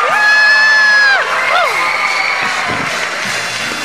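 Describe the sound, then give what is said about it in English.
A studio audience at a quiz show cheers and whoops loudly on cue, high shouts sliding down in pitch over a dense crowd roar that eases slightly toward the end. “3, 2, 1, and y'all are going to applaud loudly. You ready? Okay. 3, 2, 1.”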